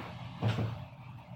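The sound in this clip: A door shuts with a single short, low thud as someone goes back behind it, then a faint steady background remains.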